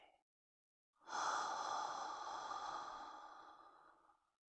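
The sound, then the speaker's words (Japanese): A slow, deep breath taken as a relaxation exercise: one long, airy exhale lasting about three seconds, steady and gradually fading, with no talk. “ゆっくり吸って。ゆっくり吐いて。”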